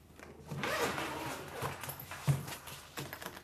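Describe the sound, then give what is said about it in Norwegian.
Zipper rasping open on a violin case being unpacked in a small practice room, heard as a few scratchy pulls with soft handling knocks, one sharper knock partway through. “pakker ut fiolin i et lite øverom”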